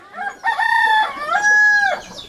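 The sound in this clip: A rooster crows in a mountain village, giving one loud, drawn-out crow of about a second and a half that wavers as it goes, heard alone without voices.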